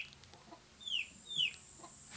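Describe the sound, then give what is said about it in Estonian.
A chick cheeps twice: two short, high peeps, each sliding downward in pitch, spaced about half a second apart and fairly faint over a quiet background. “huvitav, miks see tibu seal niimoodi?”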